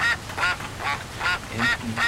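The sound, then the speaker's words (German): Ducks quacking outdoors at a pond in rainy weather, a run of six loud, nasal, rasping quacks in a fairly even rhythm. “Enten.”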